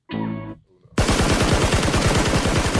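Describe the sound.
A gunshot sound effect bursts into rapid automatic gunfire: many sharp shots in fast succession, loud and continuous, preceded by a brief tonal sound.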